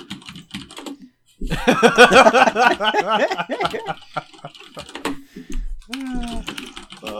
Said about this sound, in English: Are you typing